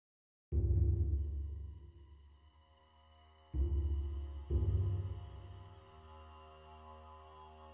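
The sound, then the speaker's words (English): An old, failing laptop whirring as it starts up: a low, harmonic humming drone that swells in three distinct surges, each easing off before settling into a quieter, steady hum. “Unzipping it, I pulled out a laptop which was on its last legs and set it on the table. The ancient machine exerted audible effort as it started up.”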